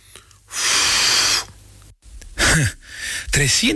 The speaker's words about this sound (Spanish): Ven, sopla en el analizador de aliento.